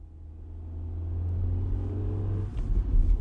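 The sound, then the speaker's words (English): Car engine rumble while driving through a tunnel at dusk, a steady low drone that swells gradually and turns rougher and bumpier near the end. “At dusk, I head through the Lincoln Tunnel to the Jersey Turnpike, past the big white oil storage tanks and the rusted globes of natural gas.”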